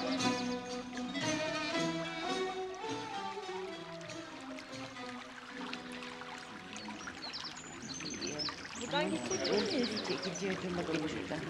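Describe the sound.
Running water from a fountain, a sound effect in a Turkish radio play, pours steadily beneath sustained tonal music, with bird chirps appearing toward the end.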